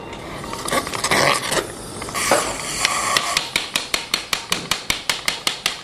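A titanium hip stem is hammered into bone without cement, first with rough scraping and rustling, then a fast, even run of sharp metallic hammer blows, growing steadily.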